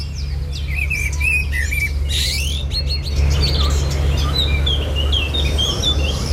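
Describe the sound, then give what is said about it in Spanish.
Birds at dawn: sharp ticking calls of a European robin, then the song of a common blackbird, many bright chirps and phrases over a steady low hum. “Está amaneciendo y escuchamos los primeros chasquidos del petirrojo europeo y luego el canto al alba del mirlo común.”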